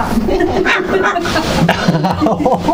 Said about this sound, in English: Tonga! You're not going to hurt me, you're not. You're just barking.